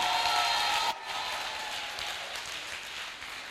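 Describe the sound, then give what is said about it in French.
Applause from a church audience, a soft, steady wash of clapping that drops slightly in level about a second in and then carries on evenly. “Acclame le Seigneur pour ta guérison.”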